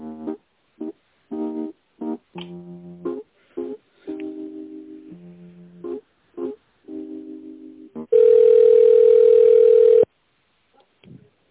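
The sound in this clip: Telephone line tones while a call is transferred: a run of short pitched notes at varying pitches with gaps between them, then one loud steady tone lasting about two seconds, followed by near silence.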